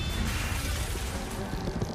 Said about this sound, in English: Agents and vehicles are lifted into the air and drop back to the ground, littering the road to the airport. One agent dives to dodge falling vehicles.